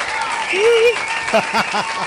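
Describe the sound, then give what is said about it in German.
Applause, a steady crackle of many hands clapping that runs beneath people talking throughout. “Super, hier kommt ein Applaus.”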